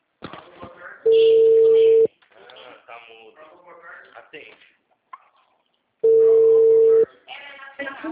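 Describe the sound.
During an attempt to call someone, two steady telephone tone bursts sound, each about a second long. Several seconds of people talking fill the gaps around them.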